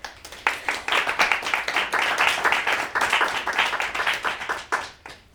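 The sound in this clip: Audience applause welcoming two city councillors as guest speakers at a cafe talk: many hands clap in a dense, steady patter that stays loud throughout and thins slightly at the very end.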